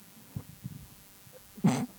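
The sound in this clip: A single sharp, breathy sneeze bursts out near the end. It is loud and short, and a few faint, low sounds come before it.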